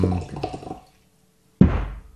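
Water poured aggressively from a water bottle into a glass: a short gurgling burst, a moment of silence, then a sudden loud splash that quickly fades away.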